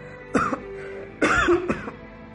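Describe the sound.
A hoarse, unwell person coughs in a few rough, throaty bursts mixed with throat clearing, separated by short gaps, with no speech.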